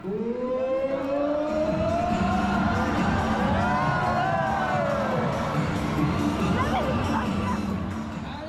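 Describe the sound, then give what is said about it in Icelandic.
An audience cheers at a killer whale show in a marine park in Antibes. A sustained, loud roar of many voices is topped by high, shrill cries that rise and fall in pitch. “líkt og þeim sem háhyrningarnir höfðu verið þjálfaðir til að taka þátt í ára raðir. Skulum heyra brot af fagnaðalátum áhorfenda af einni slíkri.”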